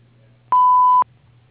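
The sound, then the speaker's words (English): An answering machine gives its beep before a message is recorded, a single steady mid-pitched tone lasting about half a second over a faint low hum. “But if you'll leave your name, number, and a short message after the beep, I will return your call as soon as possible.”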